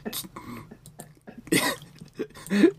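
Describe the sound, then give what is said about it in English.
A few short, dry coughs from a person with a small cough come in separate bursts with brief pauses between them, moderately loud and without speech. “I'm so sorry that I have a small cough today.”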